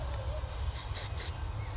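A paint spray can sprays in a few short, sharp hissing bursts in quick succession over a low background rumble.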